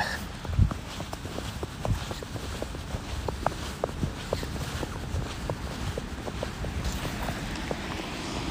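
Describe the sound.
Footsteps crunch through fresh snow on a walk in a park, a steady run of many soft, even steps over a constant wash of wind noise.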